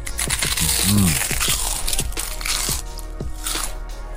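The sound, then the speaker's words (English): Crisps cooked in coconut oil crunch loudly as they are bitten and chewed, giving many sharp, crackly crunches in an uneven rhythm. “Was that a good idea to eat my crisps in the middle of the advert?”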